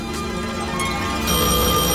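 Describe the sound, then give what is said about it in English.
A telephone bell ringing late at night: a steady, bright, sustained ringing tone that grows somewhat louder partway through, with no voices. “Answer that phone.”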